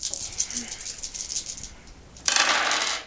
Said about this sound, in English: Yeah, so I have to roll a six or under to start the haunt.